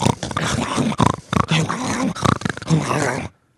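A female pug makes a run of loud snorting, growly grunts and groans in quick, uneven bursts, heard alone with no talking, before falling silent at the end.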